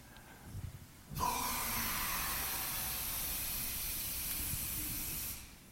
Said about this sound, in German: Hast du noch ein bisschen Luft da in deinem Behältnis? Du kannst ihm mal ein bisschen was geben.